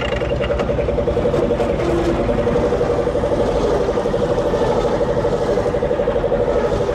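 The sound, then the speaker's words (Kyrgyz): A car engine drones loudly and evenly as the car drives off, a steady mid-pitched hum with no clear change throughout. “Азыр мен машина менен кетип коёюн.”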